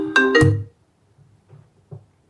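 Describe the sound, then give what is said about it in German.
A phone ringtone plays two bright, loud melodic tones in quick succession, then falls away to quiet. “Das war ein Anruf.”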